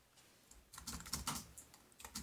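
Typing on a computer keyboard while entering text into a new post, heard as a faint, irregular clatter of key presses that grows busier and denser after the first half-second.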